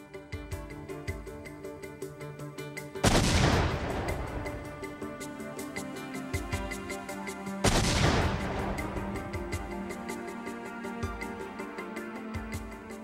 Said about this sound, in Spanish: Para obtener información más detallada, los especialistas recrearon y detonaron las bombas.